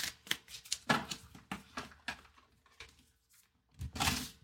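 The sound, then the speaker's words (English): Oracle cards are shuffled and drawn, giving quiet riffling and flicking bursts in an irregular rhythm, with a final louder flurry near the end. “I'm going to pull the first card for you and the second card.”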